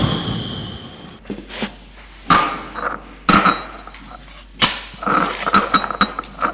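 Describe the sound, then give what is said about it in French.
A spoon, sugar and bread are put away on a table, giving several sharp knocks and light clinks at irregular intervals, some louder than others, with no talking. “Cuillère, sucre, pain, range tout sur la table.”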